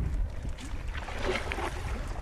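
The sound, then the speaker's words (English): Soft water sounds of a boat being paddled gently down a river in Iraq: faint, irregular swishes and light splashes over a low, steady background hush. “We're paddling quite gently down this river.”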